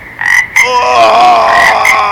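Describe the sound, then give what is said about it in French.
Frogs and toads croak loudly along a canal in southern Toulouse, France, in a dense chorus of overlapping, buzzy calls that runs continuously with a couple of brief sharper pulses near the start. “Les crapauds, les grenouilles, non! Pas ça, non! Pas les grenouilles et les crapauds!”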